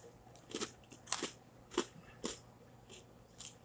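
Faint crunching and crackling as a cola-flavored candy with popping-candy pieces inside and white icing is chewed, a few soft, separate crunches spread over a few seconds with no talk.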